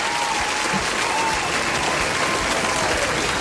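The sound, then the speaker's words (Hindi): Applause for a group of children during a classroom word game: dense, even clapping that holds at a loud, steady level throughout, with no voices rising above it. “चलें भी तालियां तो हो जाए बच्चा party के लिए तालियां तालियां”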